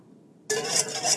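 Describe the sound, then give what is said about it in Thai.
Homemade toothpaste ingredients are slowly stirred and mixed, with powder added bit by bit into a mixture that dissolves with difficulty. After a short quiet moment, a continuous scraping swish begins and keeps going steadily. “ค่อยๆเติมค่อยๆผสมแบบนี้นะคะ ค่อนข้างจะละลายยากนิดนึงนะครับ”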